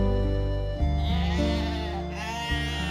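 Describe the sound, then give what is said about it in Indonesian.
Goats being herded in a pasture bleat in drawn-out, wavering cries, loud and continuous with slight shifts in pitch. “Sampai di lapangan, sudah ada kambing yang digembalakan di sana.”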